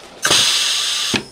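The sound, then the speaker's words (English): Mechanical whirring from the machine used to make the first batches of new pregnancy test strips: one loud, steady, high-pitched run of about a second that starts and stops abruptly, with a short clunk at each end. “that's the sound of success. And it's also the sound of the machine that Bethany and Anna used when creating the first batches of their new pregnancy test strips.”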